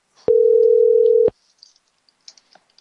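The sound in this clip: Telephone ringing on an unanswered call: one steady ring tone of about a second, followed by a few faint, scattered clicks.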